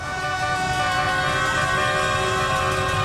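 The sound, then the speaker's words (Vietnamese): Convoys of vehicles parade through city streets at night in a celebration after a Vietnam national football team match, with a dense, continuous wall of tooting horns and engine noise. “Càng về khuya, dòng người đổ ra đường thì càng đông. Những đoàn xe nối tiếp nhau diễu hành, sắc đỏ phủ kín các tuyến phố như là Tràng Tiền, Bà Triệu, Hai Bà Trưng, Đại Cổ Việt hay là Nguyễn Trãi.”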